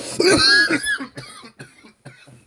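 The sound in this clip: A person coughs after taking a hit from a vape pen. One loud, harsh cough comes first, followed by several shorter, weaker coughs and throat-clearing sounds that fade with gaps between them.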